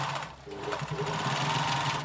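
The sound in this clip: A sewing machine taking in a pair of trousers for a client who lost weight runs with a steady, continuous mechanical whir and a rapid needle rhythm, holding an even loudness throughout.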